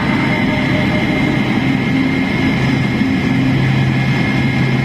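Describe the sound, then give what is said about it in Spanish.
Spacecraft retro-rockets fire: a loud, continuous roar with a deep rumbling low end and a faint steady hum runs unbroken throughout, with no voices over it. “Los retrocohetes están en marcha.”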